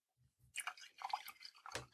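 Hot coffee being poured: a soft splashy pour lasting about a second and a half, faint and close, preceded by a couple of low dull taps.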